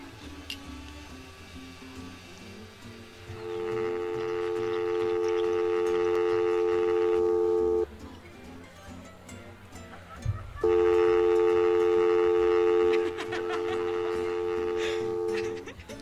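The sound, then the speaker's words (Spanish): Telephone ringing on an outgoing call: two long, steady electronic ring tones separated by a pause, over a low background hum. “Ahora vamos a hacer la llamada con nuestro querido corresponsal Pablo Rodríguez.”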